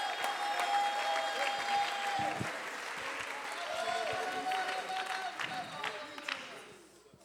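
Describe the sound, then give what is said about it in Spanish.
Congregation clapping their hands during a church service: dense, continuous applause with sustained tones underneath, holding fairly steady before fading away in the final second. “Clap your hands right now unto the Lord.”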